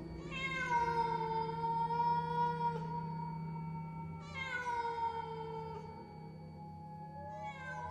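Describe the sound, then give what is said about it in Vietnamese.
A cat meows three times, loud and alone over a faint low hum. Each meow is drawn-out and wavering, slides down in pitch, and is separated from the next by a few seconds. “Tiếng mèo kêu vang lên, cả đám quay phắt nhìn ra sân.”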